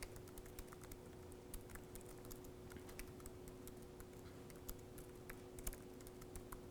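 Typing a command on a computer keyboard: many quick, irregular key clicks, faint and alone over a steady low hum.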